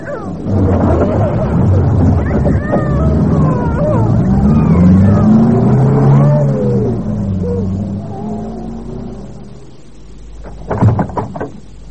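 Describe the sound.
A taxi cab drives around the block, its engine droning steadily beneath a child's wailing, pitch-bending crying, then a few sharp clunks like a car door near the end.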